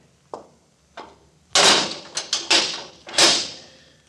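A door is being locked at a morgue: two faint clicks, then a few louder rattling mechanical knocks and clunks of the lock and door, with quiet gaps between them and no talk.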